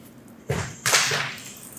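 A flexible, whippy practice weapon swung hard to land a hit. Two sharp swishing whooshes come close together and fade quickly, with no talk over them.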